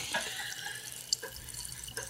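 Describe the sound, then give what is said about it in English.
Sparkling water is poured into a glass, making a steady, hissing splash with faint fizzy crackle throughout and a few brighter drips and clinks. “That was the sound of Neil Young pouring sparkling water into a glass.”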